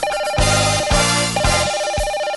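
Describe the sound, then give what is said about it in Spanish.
Telephone ringing for an incoming call on a call-in radio line, a loud electronic ring repeating in a steady rhythmic pattern of pulsed tones, heard alone without talk. “Tenemos otra llamada.”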